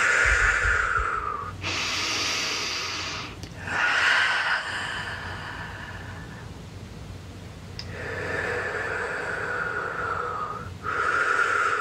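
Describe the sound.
Slow, deep breaths taken during a guided meditation: several long, airy inhales and exhales, each a soft rushing swell. Short quiet gaps separate them, and no other sound competes.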